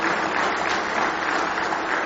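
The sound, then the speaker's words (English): A church audience at a morning service gives a round of applause in praise. Dense, even clapping from many hands holds steady and moderately loud throughout. “Give the Lord one more hand clap of praise this morning.”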